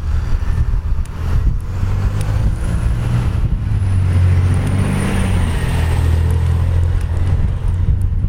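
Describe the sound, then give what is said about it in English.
City traffic noise from passing cars and trucks, a loud and continuous low engine rumble that swells and fades slightly as vehicles go by, with no voices. “Sheesh. Hello, noise pollution. My old friend. Oh, the joys of living in a city.”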